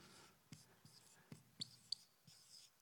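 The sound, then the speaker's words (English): Pen scratching on a surface while drawing a brain: soft, irregular strokes and taps, quiet and dry, with short gaps between them. “So let me try and draw a brain.”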